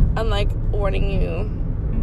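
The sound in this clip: Low, steady rumble inside a car while driving, running under a person talking throughout.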